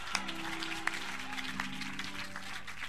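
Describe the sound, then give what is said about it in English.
Audience clapping, a steady dense patter of many hands with a few sharper claps standing out, over a low sustained hum that runs beneath the whole stretch. “So, me, the way you are clapping, I'm okay.”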